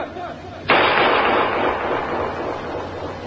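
A single loud gunshot is fired in the dark. It starts with a sharp, sudden crack and trails off into a long, roaring decay.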